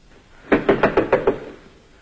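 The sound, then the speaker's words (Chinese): Six sharp knocks on a door in a staged drama, evenly spaced and loud, with no voices. “这时传来敲门声，是雅各的妻子艾米莉亚。”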